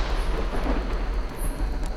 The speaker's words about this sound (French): Au-dessus de leur tête, le tonnerre gronde soudain.